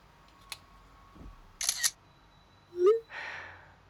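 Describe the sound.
A phone camera shutter fires while a photo is taken: a faint click, then a quick double mechanical snap, followed by a short tonal blip and a soft swish, all quiet.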